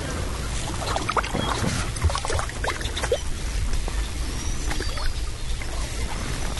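Kayak paddle strokes move through the water of a red-winged blackbird nesting ground on Cape Cod, a steady, faint wash of small splashes and trickles with no talk.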